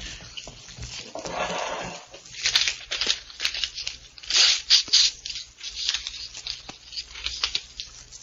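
Paper tears and crinkles as a sealed envelope is ripped open, with uneven bursts of rustling and crisp crackles rising and falling throughout.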